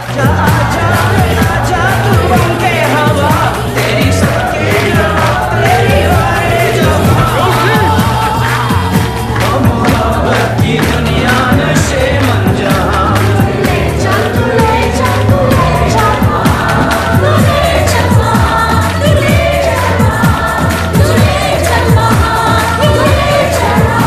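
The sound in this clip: A crowd singing along with a lead singer, their voices merged into a loud, dense wall of sound that stays at a constant level throughout.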